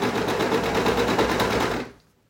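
Sewing machine stitching through fabric, sewing a close, dense seam: a rapid, steady mechanical whirr with fast rhythmic needle clatter that runs loud and even, then abruptly stops and falls to near silence.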